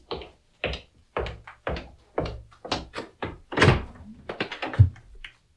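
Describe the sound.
A door being opened, heard as a long series of separate dull knocks and thuds at a fairly steady pace. The last few thumps are heavier and come closer together.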